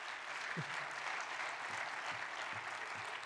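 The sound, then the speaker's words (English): Audience clapping during a sermon, a dense and steady wash of many hands applauding at a fairly even level for the whole stretch, with no voices standing out above it. “it's not that I get impatient with your clapping”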